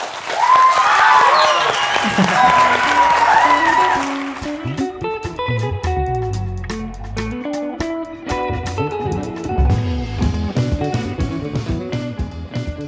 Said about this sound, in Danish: Velkommen til alle jer gymnasieelever. Jeg tænker, giv lige jer selv en stor hånd.